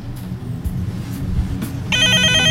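A telephone rings with an incoming call, its bright, trilling bell starting abruptly near the end after a stretch of low, steady background rumble.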